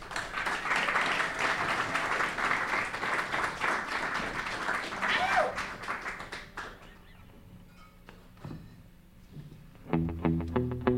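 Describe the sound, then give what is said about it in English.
An audience applauds musical guests about to perform, with dense, loud clapping for about six seconds that thins out, followed by a few plucked instrument notes as the band begins. “Please give them a big hand.”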